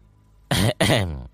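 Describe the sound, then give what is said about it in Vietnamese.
Dry coughing and throat clearing come in two short, rough, harsh bursts in quick succession, the second one longer. They are fairly loud and stand alone against near-silence. “Tôi mập ho khan vài tiếng.”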